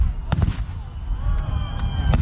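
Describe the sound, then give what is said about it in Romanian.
Fireworks burst at a large pyrotechnic festival fired with over a ton and a half of gunpowder: several sharp, loud bangs punch through a continuous rumbling crackle. “Organizatorii estimează că în jur de 100.000 de oameni, majoritatea turiști, asistau la cea de-a 40-a ediție a acestui festival pirotehnic. Pentru această sărbătoare au fost folosite peste o tonă și jumătate de praf de pușcă.”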